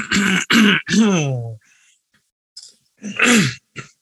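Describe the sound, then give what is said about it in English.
A person deliberately clears their throat in a showy way: a quick series of three raspy, voiced bursts, then a pause and another loud throaty rasp with a short trailing sound. “The clearing of the throat. The clearing of the throat, because I want to sound sophisticated”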